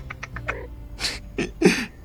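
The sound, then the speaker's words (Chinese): Kitten meowing, a small, plump-looking kitten giving a few short, high mews, the last one slightly louder and fuller than the faint ones before it. “来给小猫取个名字。 嗯，它看起来肥肥的，就叫小猪好吧。”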